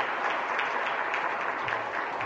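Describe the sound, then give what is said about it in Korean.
A church audience applauds during a worship service to welcome two returning guests home on sabbatical leave. The clapping is steady and dense, holding at an even level throughout with no voices over it. “우리 박수로 환영하겠습니다.”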